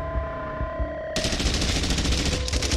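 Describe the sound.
Gunfire from soldiers shooting in the trenches breaks out suddenly after a steady droning tone, then rattles on as dense, rapid, loud bursts to the end.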